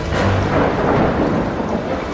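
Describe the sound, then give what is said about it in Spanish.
Loud, rolling thunder rumbles continuously with a deep low roar, mixed with the steady hiss of rain throughout. “Los truenos son pisoteos de sus pezuños. Los relámpagos son el reflejo de sus cuernos plateados.”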